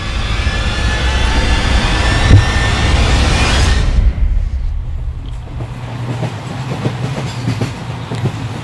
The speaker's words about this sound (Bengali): Train একটা স্টেশনে এসে দাঁড়িয়েছিল।